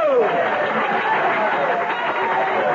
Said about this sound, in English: Thank you. Your applause is heartwarming, and I am grateful.